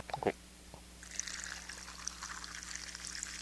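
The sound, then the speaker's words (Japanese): Liquid pouring from a freshly opened container: a brief sharp crack at the start, then a steady, faint hissing stream of splashing liquid that runs to the end. “これこれをガッとね、ガッと開けて、こちらを、ね、注いでいきたいと思います”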